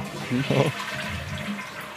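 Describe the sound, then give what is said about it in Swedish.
A toilet flush sound effect, set off by pressing a button, gives a steady wash of rushing water noise with one brief louder surge near the start. “Så, där spolade vi den jävla stollen.”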